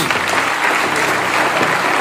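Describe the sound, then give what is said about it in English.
A church audience gives God a round of applause after a closing prayer. The clapping is dense and sustained at an even level, then cuts off abruptly at the end. “Will you help me give God a round of applause, somebody?”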